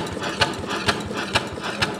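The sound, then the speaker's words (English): Steam-powered machine with metal gears and pistons pumping: four evenly spaced heavy mechanical strokes punch through a steady clattering engine-like hum, keeping a regular rhythm. “a couple metal gears and pistons pump furiously.”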